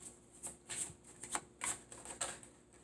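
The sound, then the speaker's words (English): Stiff tarot cards shuffled by hand, giving a series of soft papery swishes and flicks in an uneven rhythm. The sound is fairly faint and no one talks. “Okay, and this is from the Tarot Grand Lux tarot card deck that I'm just shuffling through right now.”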